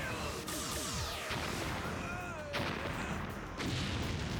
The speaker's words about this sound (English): Still do not like the blaster noise.